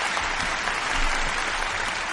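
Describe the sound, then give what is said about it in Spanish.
Crowd applause used as a sound effect to introduce a technician at the controls: a short, dense, steady burst of clapping that holds at an even level from start to finish. “Ahí tenían que estar los aplausos, como las bandas de rock, boludo, que presentan a los integrantes.”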